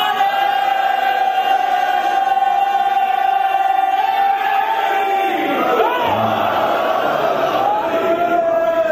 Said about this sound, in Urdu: ایک دفعہ نعرہ تو لگائے علی کے نام کا،